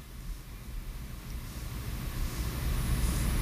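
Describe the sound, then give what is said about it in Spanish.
A low engine rumble from an SUV being driven out of a house, steady and dull, growing gradually louder toward the end. “Ahí yo estoy sacando la jipeta. Esa es la jipeta mía, esa es mi casa.”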